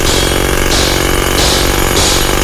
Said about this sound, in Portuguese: Tá mandando ver aí na britadeira. Liga a britadeira. Liga, liga, liga.